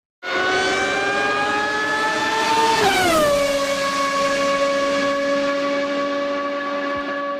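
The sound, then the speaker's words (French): A Formula 1 race car engine screams with a loud, high, steady harmonic whine, then drops sharply in pitch partway through and keeps wailing at a lower pitch to the end. “le son qui réjouit des amateurs de course automobile et en particulier de Formule 1.”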